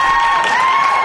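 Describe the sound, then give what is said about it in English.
A studio button sets off a brief, loud burst of crowd applause and cheering, a dense wash of clapping and shouts that fills the whole moment. “Oh, lots of applause. We just love that applause button.”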